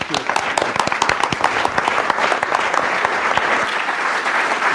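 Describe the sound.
An audience bursts into warm applause to welcome a speaker to the stage, with dense, even clapping that stays loud and steady throughout.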